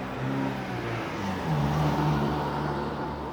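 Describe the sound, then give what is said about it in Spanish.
Cars passing by on a street, heard as a steady, continuous engine rumble and whir with a low hum underneath and no clear gaps, and no talk. “pensando y mirando los autos pasar”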